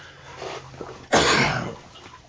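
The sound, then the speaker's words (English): A single sharp cough picked up by a microphone: one loud, breathy burst that rises suddenly out of quiet background noise and then fades away. “my mic for picking up all my coughs”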